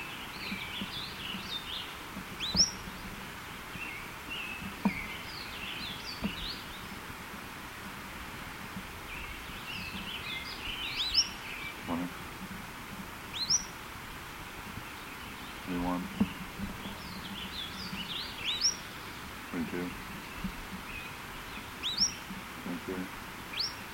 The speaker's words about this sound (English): those notes are by this bird